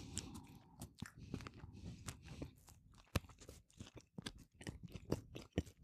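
Crunchy bites and chewing into a skin-on Krakauer sausage, sliced open and topped with mustard: many sharp, crisp snaps and moist chewing sounds with an uneven rhythm and moderate loudness. No voices.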